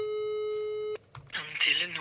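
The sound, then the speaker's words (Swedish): A telephone tone on an outgoing call: a steady, even beep held for about a second that cuts off sharply. A voice then starts talking. “Ska vi ringa Gunilla igen?”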